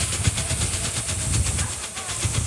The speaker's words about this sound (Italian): Tup! Interferenza.